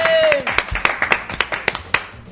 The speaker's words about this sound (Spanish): muy aplauso para Vicente de Bosque por todos nosotros